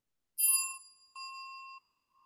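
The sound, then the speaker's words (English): A notification bell chime sounds in two clear, high metallic dings. The first decays gradually; the second holds a steady tone before cutting off, and a faint third begins at the very end. “please make sure to like, subscribe, and click the notification bell.”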